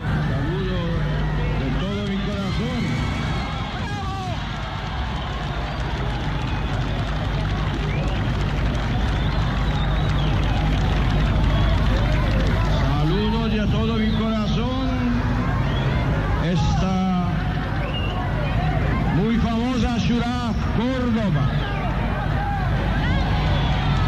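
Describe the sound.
A loud, unbroken crowd commotion fills central Córdoba during Pope John Paul II's 1987 visit. Dense babble, shouting and movement noise continue throughout, with louder swells of voices now and then.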